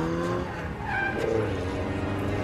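A car with reduced engine displacement accelerates hard and skids, its engine roaring loudly throughout while the tires squeal and scrub across the surface.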